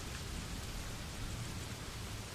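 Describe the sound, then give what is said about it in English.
Steady rain falling as a faint, even, continuous hiss, with no single drops standing out and no change across the short stretch. “Do not attend to the rain.”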